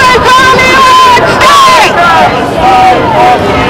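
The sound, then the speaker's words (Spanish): Crowd noise from a mass Gaza protest march in London: a dense, steady murmur of many overlapping voices, with sustained vocal tones that may be shouts or chants rising above the hubbub. “Y este es el sonido de la multitudinaria manifestación por Gaza que ha tenido lugar en Londres este sábado.”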